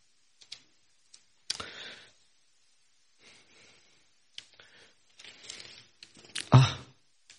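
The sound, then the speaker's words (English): Thin paper book pages being turned: faint, sporadic rustles and soft crackling sweeps with a few sharp little clicks between quiet gaps, growing slightly louder toward the end. “those pages are very thin paper.”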